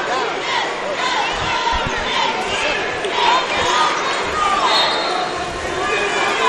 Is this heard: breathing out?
no